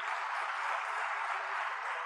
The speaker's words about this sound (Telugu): ఈరోజు మీరు నన్ను చూస్తున్నారు కాబట్టి చప్పట్లు కొట్టారు